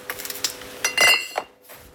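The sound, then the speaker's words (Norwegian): Glass bottles of red Christmas soda clink together on a brewery line in Florø, a quick run of bright, sharp clinks and rattles scattered unevenly through the moment before it falls quiet. “Det klirrer I flaskene på Kinnbryggeri I Florø.”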